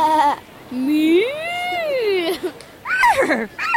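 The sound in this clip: Children's voices imitate farm animal calls in an animal barn: a short call, then a long bleat-like wail that rises and falls, followed by a few quick wavering cries.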